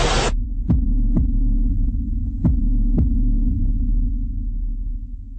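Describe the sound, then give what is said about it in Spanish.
Heartbeat sound effect in a radio jingle: paired low thumps in a slow lub-dub rhythm over a steady droning hum, with a burst of noise at the very start and no voices. “San Juan de los Morros, Suenan los latidos de la patria grande.”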